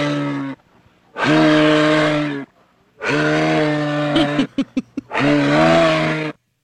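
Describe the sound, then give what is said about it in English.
A person imitates a moose call with three long, low, groaning drones, each held for over a second, plus a few short grunts between the second and third calls. “That's a nice quality moose there”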